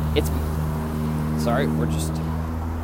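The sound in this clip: Cars pass on a street outside with a steady low engine rumble and traffic hum throughout, and a voice is briefly heard over the noise.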